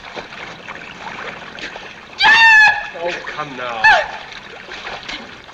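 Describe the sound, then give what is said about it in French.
Water splashes loudly as people are thrown and jump in during a film scene. The heavy splashing surges come in two main bursts, and voices are heard through them. “Remy Lund vient d'empêcher le mariage de Paulette Goddard et John Wayne, tout simplement en la jetant à l'eau et en se jetant à l'eau après pour la secourir.”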